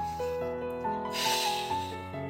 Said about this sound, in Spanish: Inhala y exhala.